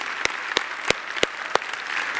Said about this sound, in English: But the choir and everybody did an awesome job. Just let's give them a round of applause for it.